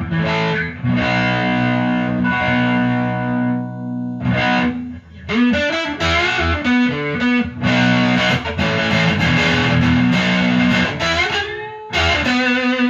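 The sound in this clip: Electric guitar through a DS-1 distortion pedal running on an old battery: loud, saturated, buzzy tone playing sustained chords and quicker note runs, with a couple of short pauses between phrases.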